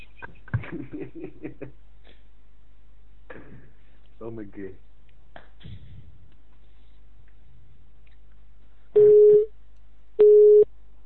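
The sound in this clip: A telephone busy signal after a call is placed: two steady, mid-pitched beeps near the end, preceded by scattered talking.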